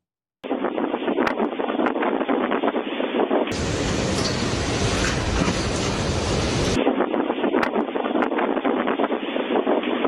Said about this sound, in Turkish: İstanbul'da akşam saatlerinde kuvvetli fırtına etkili oldu.